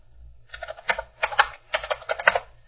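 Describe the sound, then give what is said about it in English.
Keystrokes on a computer keyboard as a short word is typed: several quick, clustered taps in bursts, with a low steady hum running underneath throughout. “And I'm going to type in banjo.”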